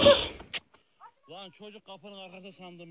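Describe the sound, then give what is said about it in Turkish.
An injured calf being caught, giving a few drawn-out, bleating cries after a short noisy scuffle at the start. “Ortalığı birbirine katarken yaralanan dana güçlükle yakalandı.”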